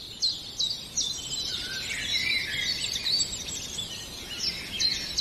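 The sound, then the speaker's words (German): Common chiffchaff sings a steady series of bright, high chirping notes that alternate slightly in pitch in an even rhythm, moderately faint over a soft background hiss. “Jetzt müsste der Zilpzalp schön zu hören sein.”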